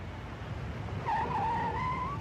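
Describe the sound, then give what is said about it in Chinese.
A car pulls up and stops on a county-town street; a sustained high squeal rises over low rumble halfway through and holds to the end. “车在县城街道上停下，金鲁生拉开车门”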